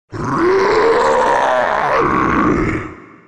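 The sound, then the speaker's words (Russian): A furious roar from a huge shark lunging out of the water: one loud, sustained, growling blast lasting about three seconds that fades out at the end, with no talking. “Поэтому она снова выпрыгнула из воды и ринулась прямо на шкета с еще более яростным ревом.”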